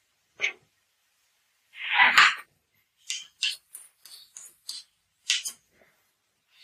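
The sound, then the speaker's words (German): Knife slicing fresh, dry button mushrooms, heard as many short, crisp cutting sounds in an uneven rhythm, with brief pauses between strokes. “Solange das passiert, schneiden wir weiter fleißig unsere Champignons.”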